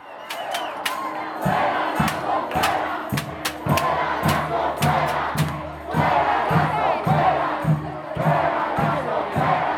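A protest crowd in Ecuador chants loudly and continuously, demanding the president's removal. Sharp, rhythmic percussive hits punctuate the massed shouting throughout.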